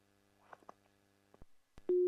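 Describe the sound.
A telephone busy tone follows a rejected call: faint clicks and low hum, then one loud, steady mid-pitched tone starts just at the end.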